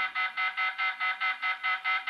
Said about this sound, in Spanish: Alarma general. ¡Alarma! ¡Alarma! ¡Alarma general!